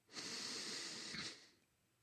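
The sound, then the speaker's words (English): A single long, deep breath drawn in at the close of a guided relaxation exercise, a steady airy hiss that lasts over a second and then fades, with no talk. “And finally, take in one deep breath”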